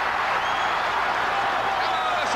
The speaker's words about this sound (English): Crowd come to life.